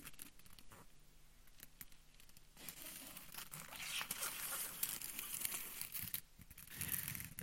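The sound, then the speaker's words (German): Gift wrapping paper crinkling and tearing as a child unwraps a present at a group gift-opening, soft intermittent rustles and rips that grow busier and louder in the second half. “Du darfst mal das hier auspacken.”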